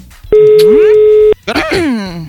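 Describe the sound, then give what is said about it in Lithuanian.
Telephone ringback tone while a call is placed to congratulate a newlywed groom: a single steady, mid-pitched tone lasting about a second, followed by a voice speaking. “Skambinam Dariui. Turėtų atsiliepti Darius.”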